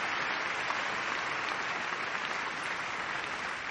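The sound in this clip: Applause fills a crowd scene in a 2006 political drama about the Queen: dense, steady clapping from many hands that holds at an even loudness for the whole clip, with no voices standing out.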